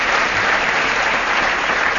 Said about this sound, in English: Good applause for the underwear bomber.